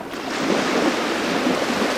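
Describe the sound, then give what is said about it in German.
Sea waves breaking on a Mediterranean island shore off Malta: a loud, continuous rushing roar of surf mixed with wind noise, no distinct separate breakers. “Seit Menschengedenken brechen die Wellen an diesem Ufer.”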